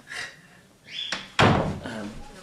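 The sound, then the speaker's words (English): A door is opened with a brief rising squeak and a sharp knock, then a heavy, loud thud that rings off and fades. “One second. I don't know how this door got opened, but...”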